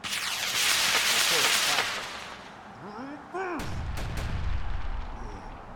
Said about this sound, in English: automatic weapons fire started ricocheting off the side